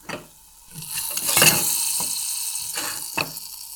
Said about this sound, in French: On prend un autre petit poêlon, tout petit, et on reprend beaucoup de beurre qu'on va juste faire fondre.